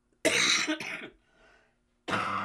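Throat clearing and coughing from a person with asthma: a few harsh, rasping coughs in quick succession, then a faint throaty rumble, a short pause and another loud cough.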